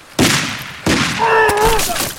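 A few sharp gunshots ring out in a war drama where a soldier is struck by a bullet. The loud bangs come at irregular intervals, with a thin high whistling tone sounding between the later shots.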